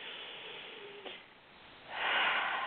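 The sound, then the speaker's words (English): A deep breath in and out during a guided relaxation exercise, taken with eyes closed and a hand on the stomach. Soft, airy breath noise gives way to a louder, rushing exhale, with no talking. “So just take another deep breath.”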